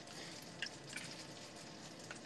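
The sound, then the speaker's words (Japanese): Food frying in a pan that has started to stick slightly: a steady, dense sizzle throughout, with a few brief louder pops. “焼き始めたんだけど。”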